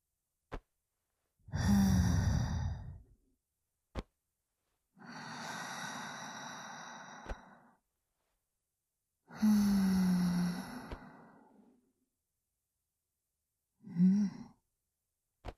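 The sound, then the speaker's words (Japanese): Slow, soft exhales through the nose during a guided breathing exercise: three long, airy breaths and a short one at the end, separated by silence and faint clicks. “ゆっくりお鼻から吐いて。”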